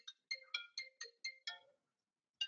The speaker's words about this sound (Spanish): A ver, llamo a mi padre.